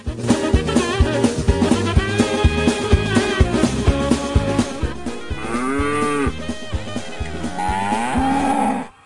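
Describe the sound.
Cows mooing: several loud, drawn-out moos with arching pitch over a steady rhythmic pulsing background.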